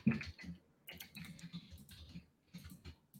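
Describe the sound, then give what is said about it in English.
Faint typing on a computer keyboard: irregular clusters of soft clicks with short pauses between them, and no voices. “Wants me to type it in again because I changed it.”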